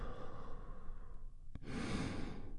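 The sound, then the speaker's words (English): A group taking a big, deep breath together and then releasing it: a soft, hushed inhale, a brief click, then a fuller, breathy sigh of exhalation that carries on to the end. “And we do that by taking a big, deep, healing breath all together. Here we go. And release.”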